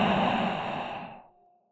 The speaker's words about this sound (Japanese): 吸って。うん、いい感じ。吐いて。